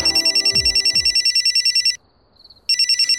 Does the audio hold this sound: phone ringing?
yes